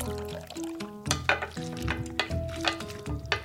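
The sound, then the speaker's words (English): A rubber spatula stirs a buttermilk mixture into a bowl of flour, making quiet, irregular scraping strokes with squeaky tonal rubs against the bowl, alone without talk. “You can add the buttermilk mixture to the bowl with your flour mixture and use a clean rubber spatula to stir until it's just combined.”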